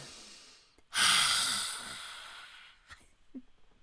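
A deep breath taken during a breathing exercise, lying on a mat after stretching. One long, airy exhale swells suddenly, then slowly fades over nearly two seconds, followed by a few faint soft sounds.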